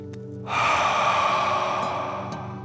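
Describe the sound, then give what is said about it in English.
One deep, slow breath during a calming guided breathing exercise for children, a long airy rush that starts abruptly and gradually tapers off over about two seconds, heard on its own. “Let's take three more deep dragon breaths as you continue to float. Deep breath in and out.”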